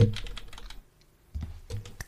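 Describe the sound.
Computer keyboard typing as someone takes notes: quick bursts of clicking keystrokes, a pause in the middle, then more typing, with no talk.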